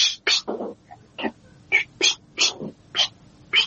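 A cat makes a rapid series of short, high-pitched calls in irregular succession, each burst brief and fairly faint against a quiet background.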